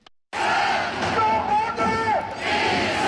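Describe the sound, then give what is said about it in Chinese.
A football stadium crowd of more than 27,000 fans at the Jinhua Sports Centre cheers for China's men's team against Thailand: a loud, continuous roar of shouting and chanting that swells and holds. “27000多名球迷现场观赛，加油呐喊声一浪高过一浪，尽显主场气势。”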